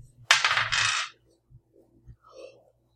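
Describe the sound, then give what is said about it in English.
Dice clatter as they are rolled during a tabletop role-playing game, a loud, bright rattling burst lasting under a second, followed by a few faint, soft knocks. “And I rolled 2 ones in a row.”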